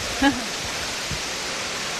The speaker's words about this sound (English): you're actually pouring it into these fabulous pots, which are originally from India, aren't they?